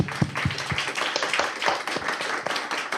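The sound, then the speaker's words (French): A single person applauds alone, a steady run of many sharp, separate handclaps with no crowd joining in. “I feel very lonely in my applause.”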